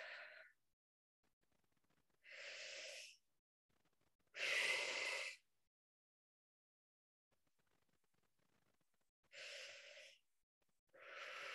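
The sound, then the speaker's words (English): Deep cleansing breaths taken during a guided grounding exercise: a series of loud, airy inhales and exhales, each a broad whooshing rush about a second long, separated by quiet pauses with no talking. “We'll take 3 deep cleansing breaths.”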